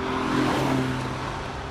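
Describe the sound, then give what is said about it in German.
Convertible sports car rushing through a curve: a steady engine roar and tire rush that swells briefly, then holds at a constant level. “Schau lieber mal das Cabrio da vorn. Sportlich? Rauscht ganz schön mal in der Kurve.”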